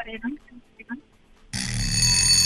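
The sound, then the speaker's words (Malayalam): A quiz show buzzer cuts in abruptly after brief talk and holds as one loud, steady, harsh tone right to the end. “സമയം കഴിഞ്ഞുപോയി, കാരണം നമ്മുടെ hello buzzer അടിച്ചിരുന്നു.”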